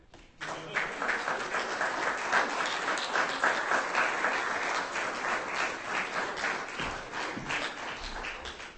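An audience applauds after a reading at a live event. Dense, steady clapping begins abruptly and continues strongly for several seconds, thinning slightly toward the end.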